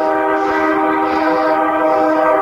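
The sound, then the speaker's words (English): A passing train sounds its horn in one loud, sustained, steady blast of several layered tones that lasts the whole time, over rumbling rail noise. “Could that train be any more obnoxious, really?”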